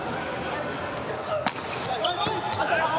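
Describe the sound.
A volleyball serve being struck in a USA versus Italy match: one sharp, brief impact in the middle, heard under a commentator's talk and steady background noise.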